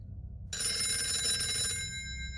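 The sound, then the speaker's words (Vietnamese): A telephone rings around midnight, its bright, buzzing electronic bell starting abruptly half a second in and sounding steadily to the end over a low background hum. “Khoảng 12 giờ đêm, tiếng chuông điện thoại đổ dồn làm ông Cường, bà Liên”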